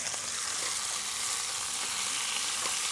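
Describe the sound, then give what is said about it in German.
Beef roulades sizzle in a frying pan as they are turned for the first time, a steady bright hiss of fat and meat that runs throughout, with a few faint ticks and pops and no talking. “Das machen wir jetzt einfach mal so. Drehen wir die Rouladen zum ersten Mal.”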